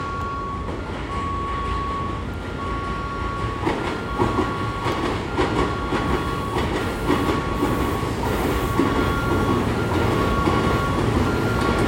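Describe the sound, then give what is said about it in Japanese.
A train passes through a station platform with a continuous loud rumble and rhythmic clatter of wheels, while an intermittent high electronic tone repeats over the din. “3番ホームご注意ください。電車が通過いたします。危険ですから黄色い点字ブロックの内側までお下がりください。”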